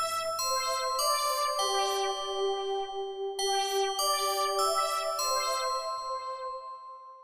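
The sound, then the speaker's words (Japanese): A FaceTime video call ringtone rings without connecting: a bright, chiming melody of clear bell-like notes that plays through and then starts again, at steady moderate loudness with no voices. “用務員さんからフェイスタイムがなかなかつながらないので”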